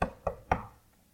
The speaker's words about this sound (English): A knock on the door.